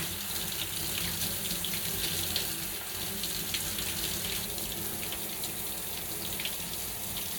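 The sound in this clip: Running tap water rinses in one steady, unbroken stream, a soft hissing splash that holds an even level from start to end, faint and alone without any speech.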